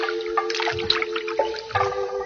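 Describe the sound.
Cool fresh water drips and trickles gently around resting feet, with soft irregular splashes and gurgles over a steady low tone.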